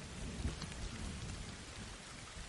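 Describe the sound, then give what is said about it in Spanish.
Steady rain falling at night outside a house door: a dense, continuous hiss with a low rumble underneath, unbroken and without voices. “De noche, Casey está acurrucada junto a la puerta bajo la lluvia.”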